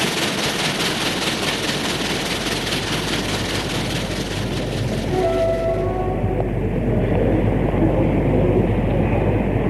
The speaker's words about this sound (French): Après un long moment, le train arrive enfin à la gare de la petite ville où doit retrouver le père Paul.